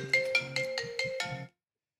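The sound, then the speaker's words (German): A mobile phone ringtone for an incoming call plays a bright, melodic run of several electronic tones in a quick, even rhythm, then cuts off abruptly, leaving silence. “Jetzt ruft die Julia an. I love it.”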